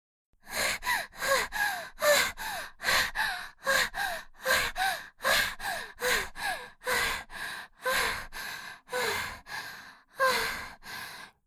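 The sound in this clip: Heavy panting from someone catching their breath after running away: many rapid, rhythmic gasping breaths with a rough voiced edge, steady and loud throughout, with no speech.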